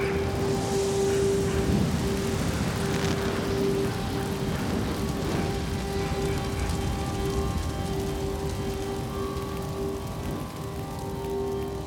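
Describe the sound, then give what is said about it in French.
Rain pours down during a thunderstorm, making a constant dense hiss that stays even from start to end, with no distinct claps standing out. “L'orage éclate.”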